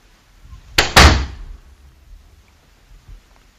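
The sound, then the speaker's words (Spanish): A door being shut in a house: two sharp, loud impacts in close succession, the second heavier and ringing briefly, then only quiet room noise. “hoy escucharemos la puerta, cierras la puerta y vuelves a entrar.”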